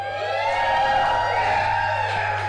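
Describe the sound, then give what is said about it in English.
A live audience at a beer-themed recording session cheers and whoops on request, a sustained, loud wash of shouting voices that holds steady without a break. “So to prove that it's not just the four of us up here, can I hear some noise from the audience?”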